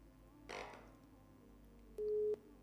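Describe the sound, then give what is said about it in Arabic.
A single short, steady beep of a busy tone sounds faintly after a phone call disconnects, following a brief burst of noise. “فصلت المكالمة.”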